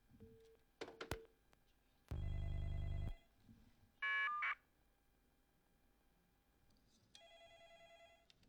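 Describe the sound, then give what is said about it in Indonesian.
A telephone rings with an incoming call: a few electronic tone bursts, one loud and buzzy, are followed by a steady repeating ringtone near the end, with no talk. “Niki wonten wonten telepon ingkang masuk”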